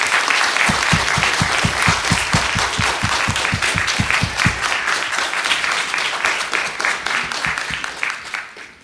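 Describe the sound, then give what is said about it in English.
Audience applause after a talk at a socialist political meeting: many hands clapping loudly, with strong, evenly paced claps standing out early on, then a looser scatter of clapping that gradually thins and fades. “Can we give them one more big warm round of applause, please?”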